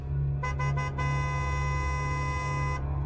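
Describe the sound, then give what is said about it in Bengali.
A car horn honks on an empty city road at a person walking down the middle of it: several quick, sharp toots, then one long sustained blast over a steady low hum. “Horn দিয়েও তাকে সরানো গেল না”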